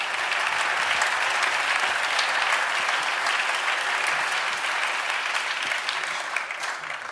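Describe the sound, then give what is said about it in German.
Audience applause at a live band concert: dense, steady clapping and crowd noise, loud and continuous throughout, easing slightly at the very end. “Und macht mal Lärm für das tolle Licht.”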